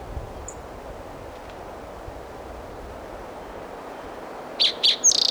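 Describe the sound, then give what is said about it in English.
Virginia warbler song: a brief burst of a few high, thin notes right at the end, rising above a steady hiss of background noise, with one faint chirp early on. “That was a Virginia Warbler singing.”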